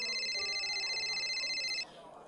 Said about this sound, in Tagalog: Sino ba naman tong tawag ng tawag na to?